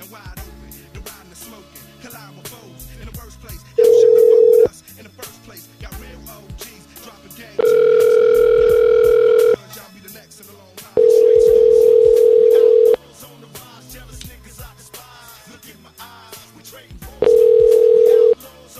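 Steady telephone tones come in four long bursts with pauses between them while a call is placed, over a busy, cluttered background.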